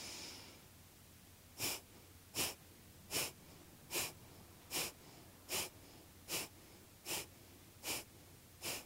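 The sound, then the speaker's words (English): Kapalabhati yoga breathing: ten sharp, forceful nasal exhalations, evenly spaced and rhythmic, beginning after a quiet opening and faint overall. “And then we're going to do that Kapalabhati breath here as well. And you're going to inhale.”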